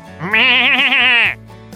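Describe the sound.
A single goat bleat at a petting zoo, a loud, quavering, nasal cry lasting about a second with a wavering pitch, then a brief faint sound near the end.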